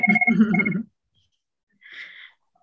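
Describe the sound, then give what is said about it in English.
Electronic mobile phone ringtone sounding during a conversation about state projects and fellowships: a bright, steady-pitched tonal burst at the start, then a shorter, fainter ring after a pause. “And I apologize for my phone.”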